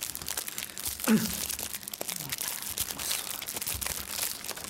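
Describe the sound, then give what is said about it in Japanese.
A muffin wrapper crinkles and rustles as the muffin is eaten, with dense, irregular crackling and crunchy tearing sounds running throughout at a moderate, steady level. “あマフィン、 マフィンだ、いただきながらやるわ”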